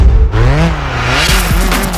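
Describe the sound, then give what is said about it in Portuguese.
Rally cars at Rally de Portugal roar past with engines at full power, a loud, harmonic-rich snarl whose pitch climbs and dips as the drivers rev and shift. “Está agora na altura das emoções do Rally de Portugal. Os motores ao máximo”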